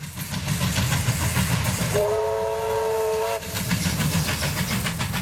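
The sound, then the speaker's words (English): A restored steam locomotive runs with a steady, dense rumble, and a sustained whistle blast sounds in the middle before the running noise carries on. The engine belongs to a Hunter Rail enthusiast. “this Hunter Rail enthusiast has spent many years and a great deal of money restoring that steam locomotive you just heard”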